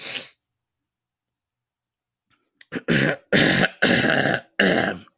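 Phlegmy throat clearing: one short harsh burst, then after a long silence a few small catches leading into several loud, raspy, rapid hacks.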